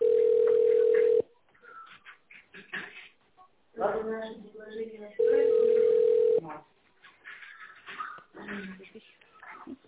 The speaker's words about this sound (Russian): Вызов переводится на секретаря.